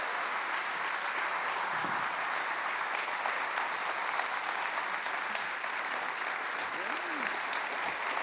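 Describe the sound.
An audience at a church community gathering applauds to welcome a guest onto the stage. The clapping is dense and steady, staying at an even, moderate level from start to finish without any clear peaks.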